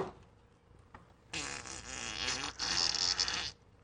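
A long, raspy fart stretches for about two seconds, moderately loud and buzzy, growing louder and harsher partway through before cutting off.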